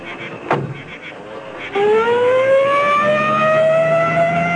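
A siren wail used as a radio drama effect for an ambulance and police squad car departing. One loud, steady wail starts partway through and slowly rises in pitch.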